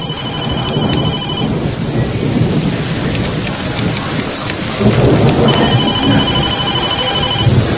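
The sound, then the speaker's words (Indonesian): Steady, loud rain pours down in a dense continuous hiss, growing heavier after about five seconds, with no voices. “Dan tak lama hujan mulai turun.”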